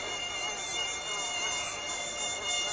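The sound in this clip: Mosquitoes whine without pause around a tent roost that bats built from palm leaves, a thin, high, steady buzz with no voices.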